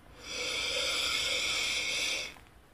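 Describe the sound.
A slow, deep inhale through the nose during a guided breathing exercise: one steady, airy rush of breath lasting about two seconds, heard alone with no talk.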